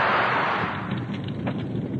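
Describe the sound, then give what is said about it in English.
Greek fire catches from a burning brand with a broad, loud roaring whoosh that bursts out at once, then settles into a steady hissing rumble of flame. “give me the burning brand. We will light the Greek fire.”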